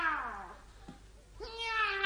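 A house cat meows twice: the first call slides downward and the second rises, both fairly soft with a quiet pause between them.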